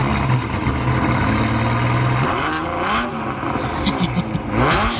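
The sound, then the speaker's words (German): Ferrari sports car engine, first a steady low idle, then a few revs whose pitch climbs sharply, the loud engine note continuous throughout. “Normalerweise klingt ein Ferrari ja so.”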